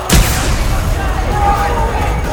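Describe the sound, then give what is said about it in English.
Sci-fi disruptor fire: a sharp, punchy blast opens the shot, then a sustained, noisy energy discharge with warbling tonal whines carries on steadily to the end. “Lewis opened fire with his disruptor.”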